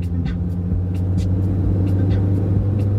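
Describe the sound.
Car engine and road rumble as a car drives onto the motorway: a steady, loud, low drone with a constant hum and no distinct separate events.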